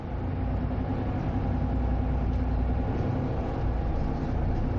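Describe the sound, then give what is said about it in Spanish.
A bus engine rumbles as the bus pulls up and stops at a bus stop, a steady, low idling drone that continues evenly throughout. “El autobús se detiene en una parada.”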